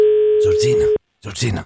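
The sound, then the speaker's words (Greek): A steady dial tone from a rotary-dial telephone holds one unchanging pitch for about a second, with a voice starting over it before the tone cuts off; after a short silence, more talking follows. “έχει βάλει τα δαχτυλάκια του πάνω στο καντράν του τηλεφώνου για να καλέσει τους κληροθέντες.”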